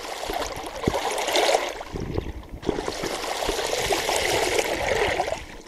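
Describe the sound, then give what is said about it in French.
River water flows around a canoe paddling upstream on the Vilaine. A steady, moderately loud watery rush is broken by occasional light knocks and splashes. “on embarque en canoë sur la Vilaine pour remonter la Vilaine”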